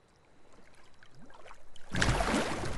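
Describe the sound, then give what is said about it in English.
Five people paddle a boat with their hands, on both sides of the hull, making many quick rhythmic splashes that grow steadily louder, then give way to a loud, continuous wash of churning water. “Johnny, Matt, and Kitty paddle with their hands on one side of the boat, while Zeke and Simon paddle on the other side.”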